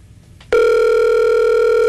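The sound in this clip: Ringback tone of an outgoing telephone call: after a short quiet lead-in, a loud, steady electronic tone switches on abruptly and holds unbroken to the end.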